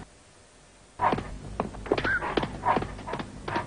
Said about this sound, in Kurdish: ئەو سەگەم لەبەوە بگرن کورە لێ نەگەڕێن